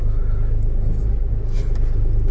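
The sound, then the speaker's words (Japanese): A car pulls away and drives off, its engine giving a steady, loud, low rumble throughout with no clear rise in pitch. “今日は来ないというところで、これで発車しますね。”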